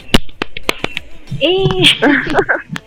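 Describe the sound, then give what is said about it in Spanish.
A few sharp hand claps from one person standing in for missing sound effects on a radio show, crisp evenly spaced slaps that give way to voices talking. “Ay, no tengo efectos, rayos. Bueno, aplaudiré.”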